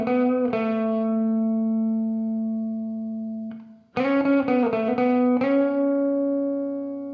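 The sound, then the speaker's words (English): Distorted electric guitar riff played alone, holding a bright, buzzy sustained chord, then briefly dropping away before returning with a choppier run of repeated, rhythmically picked notes and a final held chord. “So I ended up with a guitar riff and a synth riff on top. The guitar on its own sounds like this.”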